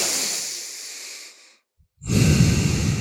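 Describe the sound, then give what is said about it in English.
Deep, deliberate breaths taken while seated in a chair, checking chest and rib expansion: a long breathy airflow that slowly fades, a brief silence, then a louder, rougher breath. No talk. “What I'm going to do is take some breaths Let's do this 3 or 4 times.”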